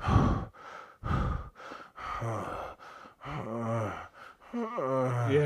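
A person imitates heavy breathing while falling asleep. Noisy drawn-in breaths give way to voiced, wavering moans that come off the breath and grow stronger toward the end.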